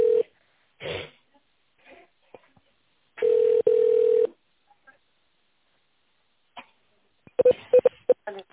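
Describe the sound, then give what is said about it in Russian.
Telephone keypad dialing tones during an automated phone menu: a brief electronic beep, then a longer steady tone in two parts, and a quick cluster of short tones near the end, with faint clicks between. “Для соединения с производственно-техническим отделом наберите цифру 1, с отделом бухгалтерии цифру 2, с главным инженером цифру 3.”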